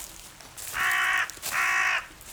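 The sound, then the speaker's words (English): Two harsh, drawn-out caws from a crow in a forest, each lasting about half a second, ring out loud and clear against a quiet background with a short gap between them. “Crow, I see you. You don't scare me. Even if you have been following me for bloody miles.”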